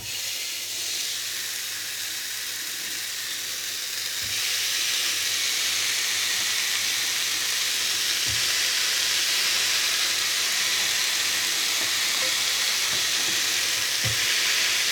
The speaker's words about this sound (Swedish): Nu öppnar jag då locket och så ska vi försöka lägga på de här